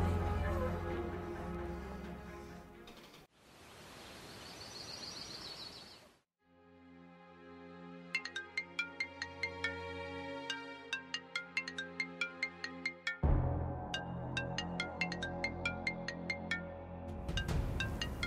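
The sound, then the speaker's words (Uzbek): A mobile phone ringtone plays a loud, repeating melody of bright electronic notes, starting after a few seconds of other noise and continuing to the end. “boyadan beri jing'illaydi telefoningiz.”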